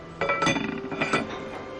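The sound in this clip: Light metallic clinking as a lock is fastened onto the lid of a Yunnan wild-mushroom hotpot at a restaurant table. A few quick, bright clinks come in a short cluster, moderately loud, over a faint background hum.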